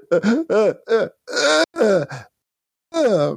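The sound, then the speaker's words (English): A voice imitates a man's big, distressed gasps for breath: a series of loud, strained, groaning voiced bursts, with a short pause before the final one. “when you pull it down, Galen takes a big gasp,”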